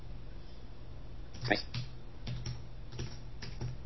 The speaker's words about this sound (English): And I'll bang that in. It won't show as I type it.